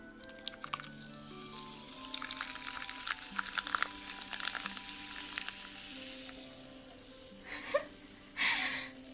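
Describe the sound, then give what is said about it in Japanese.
A fizzy carbonated drink is poured, a steady crackling fizz and hiss running throughout, with two louder splashing bursts near the end. “シュワシュワ言ってるよ。ではじゃあ早速注いでいこうかな。行くぞ。”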